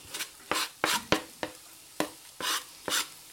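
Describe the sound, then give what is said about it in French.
Shallots cooking in a pan of heated butter and oil, heard as a series of short scraping and clattering bursts in an uneven rhythm, as if being stirred, with quiet gaps between them and no talk. “Quand tu as fait chauffer ton beurre, ton huile, tu vas commencer par mettre tes échalotes que tu vas faire réduire tout doucement.”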